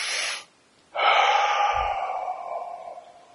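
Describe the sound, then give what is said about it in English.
A deep clearing breath taken before seated meditation: a short breath, a brief pause, then a long, audible breathy exhale that slowly fades. “Now, when we begin to sit, we usually take what's called a clearing breath. So it's like a...”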